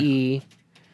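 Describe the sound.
Keys on a computer keyboard are typed, faint light clicks that follow right after a short burst of a man's voice.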